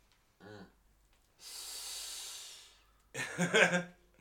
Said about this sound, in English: Excuse me, I just inhaled.